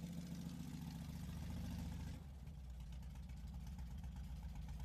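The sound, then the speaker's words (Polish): An old motorcycle engine registered in 1948, slightly modified for off-road riding, runs at a steady low idle, faint and even, its tone shifting slightly partway through. “No i jest to niesamowity motor. On ma ducha. I ciągnie, w terenie jest idealny.”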